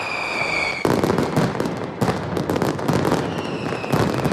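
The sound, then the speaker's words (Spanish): A mascletà firecracker barrage in the Plaza de Luceros during the hogueras festival: a dense, continuous roar of rapid, loud bangs, with high whistling tones at first and sudden surges of heavier blasts. “Y a las 2 de esta tarde se ha disparado ya la primera mascleta en la emblemática Plaza de Luceros.”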